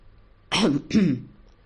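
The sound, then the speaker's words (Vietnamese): Two dry coughs ring out in a hall, short and close together, fairly loud and heard alone against a quiet background. “Đột nhiên trong đại sảnh vang lên hai tiếng ho khan.”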